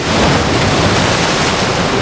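Roaring tsunami waves surge in from the sea as a dense, unbroken wash of rushing water noise that holds at a constant loud level for about two seconds, with no voices.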